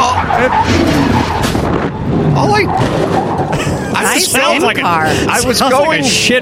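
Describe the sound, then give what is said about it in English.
A race car whips around and spins off the track during a warm-up lap, with tire skidding and engine noise running steadily throughout, under continuous talk. “The car shouldn't have whipped around and flown off the track. Put the sound in there.”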